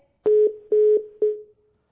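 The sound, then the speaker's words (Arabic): A telephone line tone after the call cut off: a steady mid-pitched tone broken by three louder pulses before it fades out alone. “انقطع الخط بيننا وبين أختنا أم جبير”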